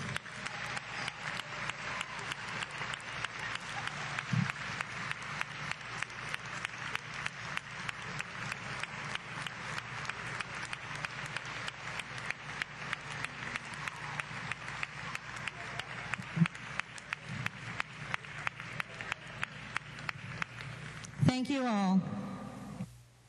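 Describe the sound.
A crowd applauds breast cancer survivors during a rose ceremony at a volleyball breast cancer awareness evening, with dense, steady clapping sustained at an even level for about twenty seconds before it thins out at the end.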